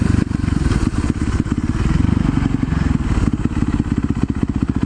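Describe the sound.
A Yamaha YZ motorcycle engine runs with a loud, rapid, rhythmic firing throb, its low pulsing beat holding fairly steady in pitch and level.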